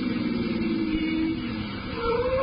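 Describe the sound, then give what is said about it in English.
A car slowing down: a continuous, mid-pitched engine drone that holds fairly steady, dips briefly, then swells again. “Driver, slow down. We'll walk from the corner.”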